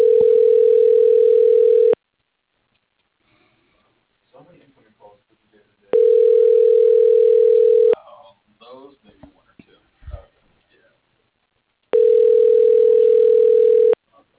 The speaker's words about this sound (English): Thank you for calling. Please hold while I transfer your call.